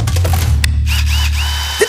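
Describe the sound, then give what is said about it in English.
A Makita multi-tool runs with a loud, steady low buzzing drone rich in harmonics. Faint high chirps sit above it, and a short extra sound comes just before the end. “Oh, the Makita Multi-Tool. Know your power tools.”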